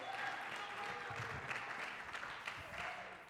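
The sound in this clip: Steady applause from a church audience welcoming a speaker up on stage, a continuous dense patter of many hands clapping throughout, fairly soft in level.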